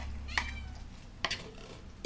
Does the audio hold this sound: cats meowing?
yes